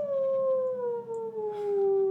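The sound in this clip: A single long wolf howl holds a clear harmonic tone that slowly slides lower in pitch. It is sustained and fairly loud, with a low hum underneath and no voices.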